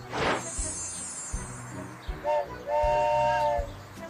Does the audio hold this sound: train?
yes